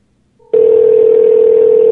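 Telephone tone, a short faint beep followed by a loud, steady, unbroken single-pitch tone that holds to the end.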